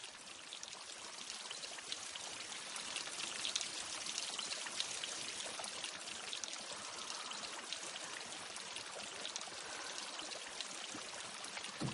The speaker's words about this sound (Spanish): Reparan en el torrente de agua que baja del techo.